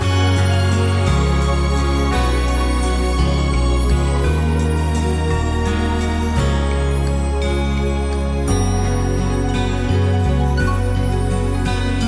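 Updated arrangement of a Brazilian Christmas children's song, played as loud, continuous melodic music with a steady bass line and bright sustained tones throughout.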